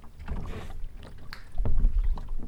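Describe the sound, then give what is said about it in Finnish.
A boat glides slowly across open water toward an uninhabited island, near two swans. Soft, continuous water swishing and a low rumble carry on throughout, with a few stronger surges and no voices. “Ja vene näyttää tässä nyt pikkuhiljaa lipuvan kohti tuollaista nähtävästi asumatonta saarta.”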